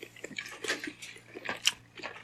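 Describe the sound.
Biting into and chewing a small shrimp and pork shumai dumpling: faint, moist chewing with a few soft crunches at an uneven rhythm.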